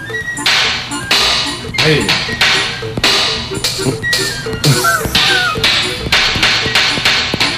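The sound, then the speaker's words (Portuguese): A neighbour practising on a drum kit with cymbal, recorded on a phone: many loud, irregular stick hits on drums mixed with splashy cymbal crashes, a clattering, uneven beat that continues without pause. “É o baterista que pega com as duas mãos, né? Aí ele descobriu o prato.”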